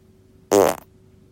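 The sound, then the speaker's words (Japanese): A single fart, a loud buzzy blast lasting about a third of a second that trails off quickly, alone against quiet background. “それではおなら出していきます。”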